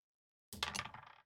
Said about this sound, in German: würfel mal einen W6